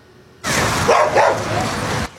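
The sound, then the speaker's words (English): Dogs bark and yip at a public swimming pool during a dog swim day. A loud, dense burst of barking lasts under two seconds and stops abruptly. “We'll take a look at these pups cooling off in the pool. Dog owners were able to bring their furry friends to the Valley Mission Pool Sunday.”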